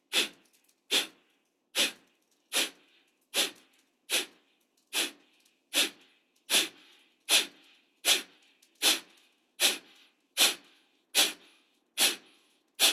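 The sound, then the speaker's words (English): Rapid, forceful breathing pumps of a guided breathing exercise follow an inhale. Sharp nasal bursts repeat in a steady, even rhythm, roughly one every 0.8 seconds, each clear and separated by brief quiet. “After this inhale, we're going to do 15 pumps. So inhale. And begin.”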